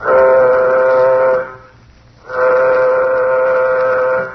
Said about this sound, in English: Well, gentlemen, the moment has arrived. Sound warning signal.